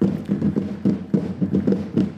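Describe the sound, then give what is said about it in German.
Steady drumbeats from the Dollinger Realschule school drummers marching into a beer garden: many regular, punchy low thuds in a quick marching rhythm that carries on throughout. “Ja, hier im Biergarten laufen gerade die Trommler von der Dollinger Realschule ein.”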